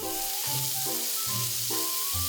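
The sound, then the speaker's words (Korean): Asparagus stir-frying with onion and garlic in a hot pan gives a steady, bright sizzling hiss, heard beneath a melodic tune that moves in stepped notes. “또 다른 메뉴는 아스파라거스를 양파와 마늘에 볶은 아스파라거스 볶음입니다.”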